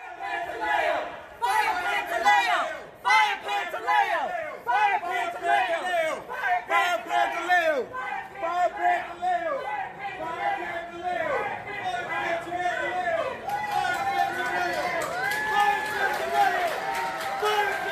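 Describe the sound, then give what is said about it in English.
An audience at a Democratic presidential debate chants "Fire Pantaleo", a loud, sustained crowd chant of many voices repeating the phrase in a steady rhythm for about eighteen seconds. “his presence prompted well-known activists Tamika Mallory and Linda Sarsour, who were in the audience, to chant Fire Pantaleo.”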